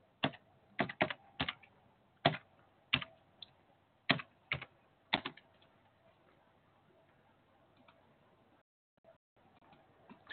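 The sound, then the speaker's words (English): Computer keyboard typing: a quick run of crisp, quiet keystrokes, then a few sparse, softer taps. “Let me type in my computer here.”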